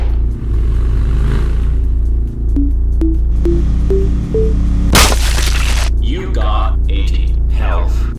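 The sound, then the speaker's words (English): A bomb goes off in a video game: five short beeps step upward in pitch, then a loud, sharp burst of noise breaks out over a steady low hum, followed by scattered rougher sounds. “I'm being a little risky here. I wonder if I can show you how bombs work.”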